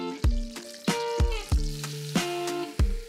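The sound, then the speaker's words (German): Butter and flour sizzle together in a pan as a roux for béchamel is stirred: a steady frying hiss broken by several sharp metallic knocks of a utensil against the pan. “Das heißt, wir haben jetzt hier Butter geschmolzen. Und dazu kommt jetzt die gleiche Menge an Mehl dazu.”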